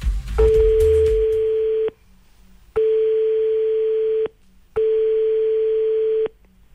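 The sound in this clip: Ringback tone of an unanswered telephone call: three long, steady, mid-pitched beeps of about one and a half seconds each, separated by short silent gaps, with a brief low rumble before the first.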